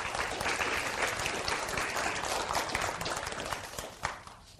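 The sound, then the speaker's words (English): Audience applause welcomes a married couple to the stage to share a testimony. The dense, steady clapping holds strong, then thins out and fades near the end. “Let's give them a hand and welcome them.”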